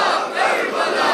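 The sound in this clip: A crowd at a religious gathering shouts back a Shia slogan in unison in response to a leader's call, a single loud, sustained chorus of many voices.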